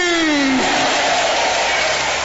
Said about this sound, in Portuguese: Aplauda a Jesus.